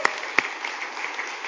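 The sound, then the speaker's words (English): Scattered clapping from a church audience. Two sharp, separate claps stand out at the start, followed by lighter, thinner claps that stay fairly faint. “Can we give Jesus a clap?”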